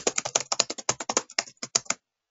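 Rapid typing on a computer keyboard, many crisp keystrokes in a fast, fairly even rhythm that stops abruptly, followed by a brief silence and one last tap.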